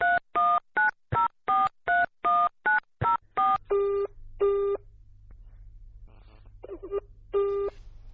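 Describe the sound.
A telephone is dialed with a rapid, even series of about a dozen touch-tone beeps, followed by a few longer, evenly spaced line tones against a low hum.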